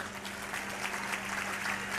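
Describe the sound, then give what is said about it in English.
An audience claps during a sermon: a soft, dense patter of applause that stays steady and fairly faint for two seconds, with a low hum underneath. “Thank you for your clapping.”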